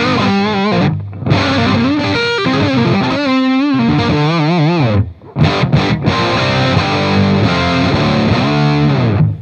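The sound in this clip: A Les Paul style electric guitar plays through effects pedals into a Marshall amp, giving a loud, heavily distorted tone with sustained chords and bending notes, broken by a couple of brief pauses.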